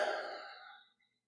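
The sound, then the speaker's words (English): A single long, breathy exhale from a person during a guided deep-breathing exercise, soft and airy, fading smoothly to silence. “We breathe the same air. Inhale and exhale.”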